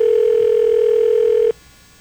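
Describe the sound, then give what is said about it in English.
A telephone ringback tone on an outgoing call to a house: one steady, unbroken hum-like pitch holding for about a second and a half, then cutting off abruptly, with no voices. “The phone's ringing at Bigfoot's.”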